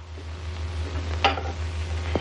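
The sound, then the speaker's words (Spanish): Cups being stacked and set down on the corner of a cluttered table, a couple of soft clinks over a steady low hum. “Apila las tazas. Las coloca en una esquina de la mesa.”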